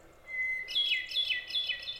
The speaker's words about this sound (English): A brownish bird recognized by its spotted breast and reddish tail, the hermit thrush is found in northern forests as well as mountainous regions in both the east and the west.